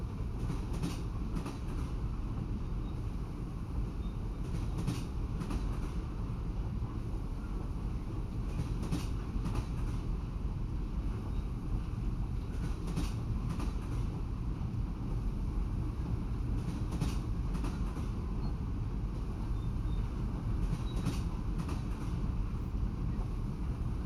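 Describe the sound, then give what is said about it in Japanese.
A train running on rails makes a steady, loud rumble. Paired clicks from the rail joints recur at a regular, unhurried rhythm throughout. “景色を見るのもいいけど、目をつむって走行音を感じてみて。”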